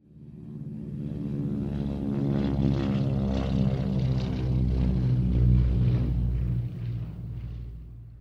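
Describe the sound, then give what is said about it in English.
A propeller airplane drones steadily, a low, rumbling, harmonic engine tone that swells to full loudness, holds, then eases off near the end, heard alone. “Plane.”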